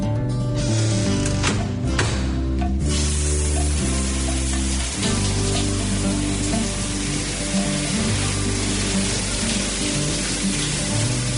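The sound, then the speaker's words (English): A shower runs cold, its water spraying in a loud, continuous hiss with a faint low hum underneath and a brief denser burst of spray early on. “Mom, the shower's cold.”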